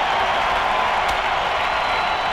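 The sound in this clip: Audience applause after a staged gladiator contest: dense, even clapping that holds at a steady level for a couple of seconds.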